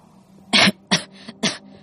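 Three harsh coughs from a young man in a weak, struggling condition, each a short burst with a fainter catch between the second and third, and no talk around them.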